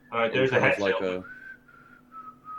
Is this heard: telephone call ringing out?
no